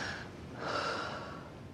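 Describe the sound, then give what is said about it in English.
A patient taking a deep breath in while a doctor checks the lungs at a hospital: one slow, faint, airy inhale that swells in the middle and then tapers off. “Take a deep breath in.”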